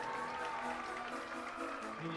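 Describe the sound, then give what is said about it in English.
Crowd roaring and applauding at a Saturday night minor league baseball game in Fresno, California, between the Fresno Grizzlies and the Modesto Nuts. The noise is a dense, steady wash that holds for the whole stretch, with no breaks. “Ah, there we go. That's a big roar. Give all the Lions a round of applause, Grizzly fans.”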